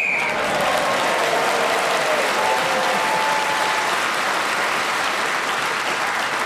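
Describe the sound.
Studio audience applause on a game show at the end of a final round: loud, dense clapping that holds at an even level from start to finish.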